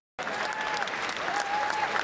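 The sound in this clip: Applause from Labour members of parliament meeting a party politician: dense, steady clapping that starts abruptly after a short silence and holds at an even level for about two seconds.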